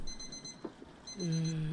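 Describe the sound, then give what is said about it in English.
An alarm clock rings with high, steady electronic beeping that pauses briefly and then resumes alongside a lower sustained tone, all fairly quiet. “I should have remembered to turn off the alarm last night.”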